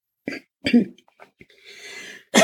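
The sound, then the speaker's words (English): Throat clearing by a speaker: a few short, raspy bursts separated by pauses, with a breathy stretch before a final strong clearing. “Sorry about all the throat clearing.”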